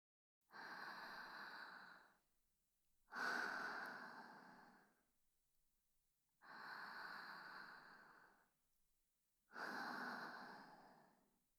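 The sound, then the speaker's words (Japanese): Deep, slow breathing, four long airy breaths in and out, each lasting around two seconds and separated by short silent pauses, soft and unaccompanied. “まずは深呼吸してみようか。ほら、私に合わせて息をしてみて。”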